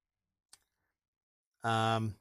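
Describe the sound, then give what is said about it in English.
A single sharp, brief mouse click on a web link. After a short silence, a voice follows. “So let's click the link.”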